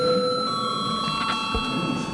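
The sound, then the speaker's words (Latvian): An electric bell rings in a parliament chamber to announce a break in the session, a continuous steady ring with several bright overtones that lasts through the whole clip. “Kolēģi, ir pienācis laiks pārtraukumam, tāpēc lūdzu zvanu.”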